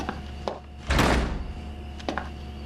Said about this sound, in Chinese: 门关上。 关门。